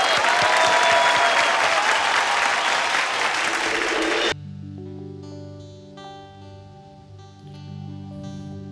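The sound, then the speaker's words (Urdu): An audience gives dense, even applause to welcome a performer on stage. The clapping lasts about four seconds, then cuts off abruptly as quiet instrumental music with sustained tones begins. “تالیوں کے ساتھ سواگت کیا جائے جاوید علی صاحب”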